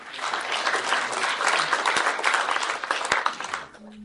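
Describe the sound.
Audience applause greets a speaker at a banking talk, with dense, steady clapping that holds at full strength for a few seconds before quickly dying away near the end.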